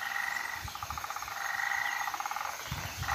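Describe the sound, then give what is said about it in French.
Frogs croak in a fast, pulsing chorus on Mauritius, repeated chirping calls that run steadily and fairly loud, with a few low thuds underneath at times. “Je pense que c'est des grenouilles.”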